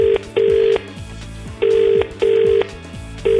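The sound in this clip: Ringback tone of an outgoing telephone call: loud, steady electronic beeps in pairs, repeating with short gaps.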